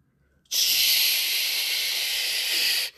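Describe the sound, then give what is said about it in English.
Seasoned food coated in mustard and flour sizzles in a hot skillet, a loud, even, hissing crackle that starts suddenly, holds steady for over two seconds, then stops. “season it really good, put some of that mustard in it, get that flour on it, and then come through. Put that thing in that hot skillet.”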